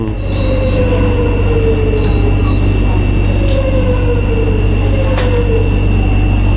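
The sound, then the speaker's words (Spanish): Modern metro train with doors closing and opening, set against a loud, constant rumble of the carriage, with a few short, falling high-pitched tonal squeals recurring through it. “Un cierre de metro. Ahí está, se abren las puertas, gente entra. Este es el metro moderno.”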